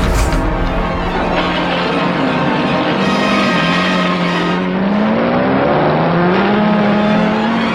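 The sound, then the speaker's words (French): Racing car engines roar at the start of the 1955 Le Mans 24-hour race as the Ferrari team takes the lead. Several loud, overlapping engine notes climb in pitch as the cars accelerate away in a continuous roar without talk. “Sur la piste, après la frénésie du traditionnel départ en courant, ce sont les pilotes italiens de l'équipe Ferrari qui prennent la tête des opérations.”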